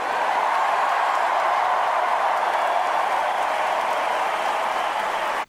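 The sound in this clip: An audience applauds Michelle Obama's speech with dense, steady clapping at an even level throughout, then cuts off abruptly.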